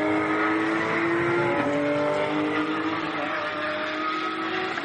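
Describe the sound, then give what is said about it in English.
A race car screams along at high revs on a qualifying flying lap, loud and steady throughout. The engine note drops sharply twice as it shifts up, then climbs again after each change. “Jean-Mathieu Landry, in the Chazelle Technology Course car now at 2:23.4.”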